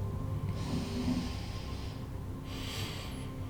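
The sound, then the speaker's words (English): A soft, deep breath in is drawn slowly and quietly, then a second, shorter breath follows, both heard faintly over a low, steady hum. “Take one more deep breath in.”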